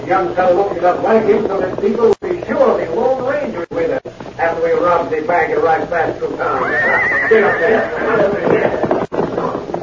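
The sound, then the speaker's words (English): Horses whinnying as several approach along a trail, a clear drawn-out whinny rising above people talking midway through. “they heard the sound of hooves approaching out on the trail. Silver, hold on, Scout. Sounds like several horsemen moving toward town”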